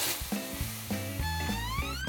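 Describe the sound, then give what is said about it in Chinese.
Beef sizzles as it fries in a wok over high heat, a steady, fairly quiet hiss with stepped musical tones playing over it throughout. “你不是先下牛肉吗？ 啊，先下牛肉， 一定要先下牛，因为这个一下去就糊了。 啊，我知道，大火， 对， 这么大火，”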